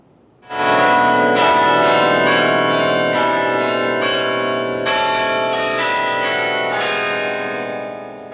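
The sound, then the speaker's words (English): Carillon bells at the Duke University Chapel play the Michigan State alma mater and fight song. Loud, overlapping struck notes ring out in a sustained melodic peal. Fresh strikes keep layering over the lingering tones, and the sound eases off slightly at the end. “Listen as the Duke University Chapel featuring the alma mater and fight song of MSU.”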